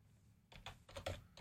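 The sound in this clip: Typing code on a computer keyboard: a few quick clusters of soft, crisp key clicks follow a brief quiet start, with no talk.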